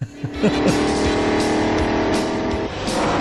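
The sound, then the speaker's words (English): Stock cars racing at a Winston Cup race make loud, roaring engines with a high, buzzing whine. A few quick bursts come early, then a sustained, heavy drone of cars running together continues without voices. “the Winston Cup. He's like, I can't tell. They're going so fast. Look at these men racing. So fast.”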